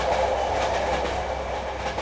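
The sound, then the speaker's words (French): A train speeding along the rails toward Trieste on Italy's Adriatic coast gives a steady, loud rumbling roar with a faint rhythmic clatter running through it, continuous and unbroken. “Le train fonce vers Trieste, côte adriatique de l'Italie.”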